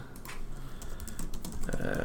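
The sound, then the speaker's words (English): Keys on a computer keyboard are typed rapidly, producing a dense, steady patter of clicks over about two seconds. “Let's just type right in here, huh? Why stand on ceremony?”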